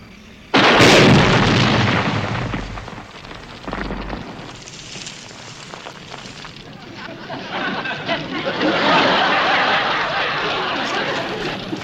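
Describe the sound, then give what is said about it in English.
An explosion erupts as gunfire strikes a car's gasoline tank: a sudden loud blast gives way to a long, roaring rumble that swells again toward the end, with voices heard over it. “Great shooting, Major. You hit the gasoline tank, not the tires.”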